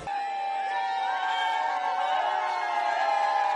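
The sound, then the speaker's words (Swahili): A large crowd cheers as Pope Francis greets them in Lingala. Many voices merge into a continuous, dense roar with sustained tonal shouts, staying loud and steady throughout. “Umati wa watu ulishangilia wakati Papa Francis mwenye asili ya Argentina alipowasalimia kwa lugha ya Lingala”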